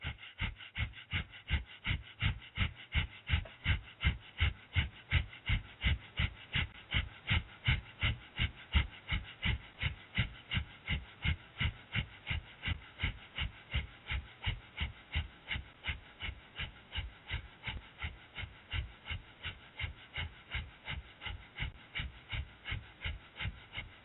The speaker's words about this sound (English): We're going to do breath of fire for 1 minute. And then we're going to repeat with the right leg. Breath of fire. Begin.